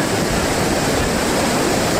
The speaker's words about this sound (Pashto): د دوی په خبره چې اوس هم په خوړ کې پریمان اوبه بهیږي